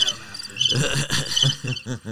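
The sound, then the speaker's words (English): A crickets-chirping sound effect with rapid, high, thin chirps, first alone and then under a man's voice talking loudly over it. “roll the crickets. Like, why didn't you roll them, dude?”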